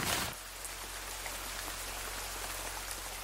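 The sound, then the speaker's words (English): Steady rain falls in a dense, even patter, heard beneath an oak tree, with a brief louder burst at the very start before settling into a constant hiss with no voices. “We'll at least get out of the rain under this oak.”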